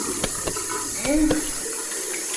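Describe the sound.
Water runs steadily from a tap while someone washes up with soap, a continuous broad hiss that stays even throughout.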